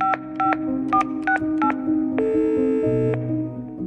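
A telephone is dialled for a call: a quick series of short, bright keypad beeps at shifting pitches, followed by a longer steady tone, over a low, sustained background.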